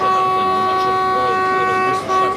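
A train starts moving on a route toward Wrocław. Steady, loud harmonic tones that sound like a horn or whistle sit over a low rumble for the whole clip, with a brief dip near the end.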